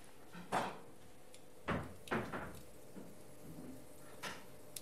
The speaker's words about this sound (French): je suis en train de couper des tranches